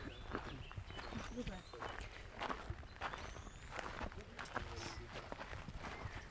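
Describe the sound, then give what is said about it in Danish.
Footsteps of several people walking up a path into a medicinal herb garden in Tranekær. Many steady, crunching steps keep an even pace throughout, with voices underneath. “Men nu synes jeg, vi skal gå op i have 1. Ja, vi går op ad stien her.”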